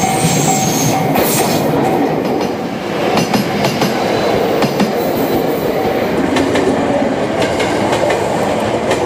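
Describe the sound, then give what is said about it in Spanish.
Trains run on tracks that pass between orchards, rice fields and close to houses, giving a loud, steady rumble with clattering wheel clicks throughout. “Los trenes circulan entre huertos, arrozales y casas unifamiliares. Es sorprendente lo cerca que están las vías de las casas.”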